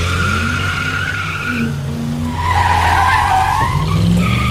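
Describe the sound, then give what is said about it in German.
Car tires spin and squeal under hard acceleration at a traffic light, a sustained, whining screech over a droning engine that swells louder about halfway through and stays intense to the end. “Keine Frau denkt sich bei dem Sound, geil, den will ich heiraten. Ihr könnt also aufhören, bei der Ampel so viel Gas zu geben, dass die Reifen durchdrehen.”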